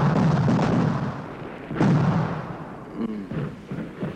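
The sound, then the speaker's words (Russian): Artillery shells exploding in the distance during battle, a dense rolling rumble of deep booms with one sharper blast midway and further heavy thuds trailing after. “Командир артиллерии смотрит в бинокль. Вдали взрываются снаряды.”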